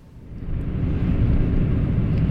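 A car drives around the former Soul City, giving a steady, low engine rumble and road noise that swells slightly in the first half second and then holds even, with no talk.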